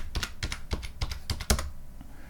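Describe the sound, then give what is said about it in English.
Rapid keystrokes on a computer keyboard as a password is typed into a terminal: a quick, uneven run of sharp plastic clicks, then a short pause and one last soft tap. “Type in my password.”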